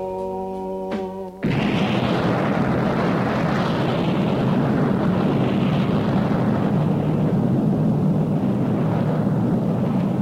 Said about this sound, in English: With countdown completed, the rockets did roar as millions were watching to see Challenger